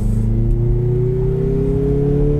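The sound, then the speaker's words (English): A turbocharged 2.5-litre Mazda CX-50 engine with a six-speed transmission accelerates smoothly. Its loud, steady drone climbs slowly in pitch, with no voices. “yeah, you can easily modulate the throttle. Feel the car pull, works really well.”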